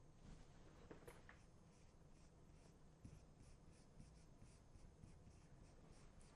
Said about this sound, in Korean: 자, 함께 써볼게요.